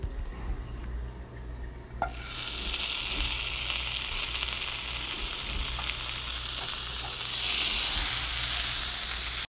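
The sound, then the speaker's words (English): Butter sizzling in a frying pan: a loud, steady, hissing crackle starts abruptly after about two seconds of quieter background and continues without break to the end. “After I'm done mixing them, I take a decent amount of butter and put it in my pan.”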